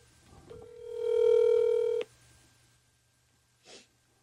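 A telephone tone as a call is placed to the next caller: one steady electronic beep holding for about a second and a half, followed after a pause by a brief soft puff of noise.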